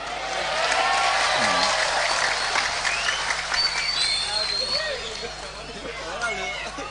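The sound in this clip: An audience at a religious talk breaks into applause, loud and dense at first, then easing slightly as voices and murmuring chatter rise over the clapping.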